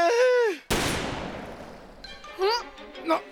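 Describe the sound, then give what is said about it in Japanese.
A single gunshot in an audio drama set at sea: a sharp, loud crack that decays over about a second, with voices heard just before and after it. “なんだ 銃声だ。”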